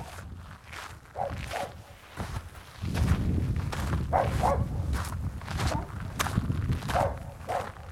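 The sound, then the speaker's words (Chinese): A dog barks while following someone across a ranch, giving a few short barks, some in quick pairs. The barks sit over steady rustling and shuffling sounds. “这是小狗一直跟着我哈。别叫了，我们是好人，我们是在牧场的好人。”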